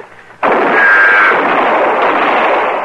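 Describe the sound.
A single loud gunshot cracks out suddenly, then a long rumbling echo trails off for a couple of seconds.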